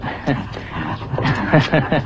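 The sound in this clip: A dog yips and whimpers several times in short, whiny bursts, heard among people talking.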